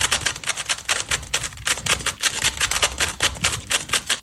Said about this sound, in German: Zauberwürfel in nur 4,27 Sekunden gelöst. Damit wir uns das jetzt alle mal vorstellen können. Also der ist komplett verdreht. Ja. Und das hier sind 4,27 Sekunden. Hört genau hin.